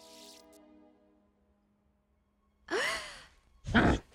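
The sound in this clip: A girl gasping for breath as she comes back to life, two sharp, breathy intakes, the first with a rising tone and the second louder, following a faint humming tone that fades into near silence.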